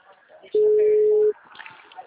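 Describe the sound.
Telephone ringing tone of an outgoing call: a single steady, loud mid-pitched tone lasting under a second, with faint voices around it.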